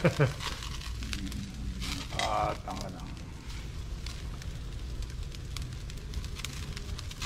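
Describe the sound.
A straw fire burns with a dense, steady crackle and rustle, used for straw-flame cooking in a coastal town. It is moderately loud and continuous, and people talk briefly over it.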